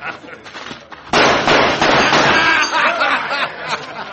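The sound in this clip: A sharp gunshot fired at a church's weather vane bursts in partway through, followed by a sustained loud, noisy wash of sound that carries on to the end.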